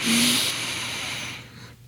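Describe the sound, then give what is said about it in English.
A slow, controlled breath drawn in as part of a therapeutic breathing exercise. A steady, airy hiss is sustained at an even level before it fades out near the end. “try to breathe in and see if you can get to a count of five”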